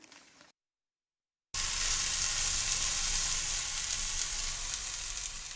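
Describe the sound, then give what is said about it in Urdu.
Chicken sizzles in a non-stick frying pan: after a brief soft sound and a moment of silence, a loud, steady frying hiss begins abruptly and continues to the end. “ایک تجویز یہ ہے کہ اسے naan stick frying pan میں پکا لیا جائے۔”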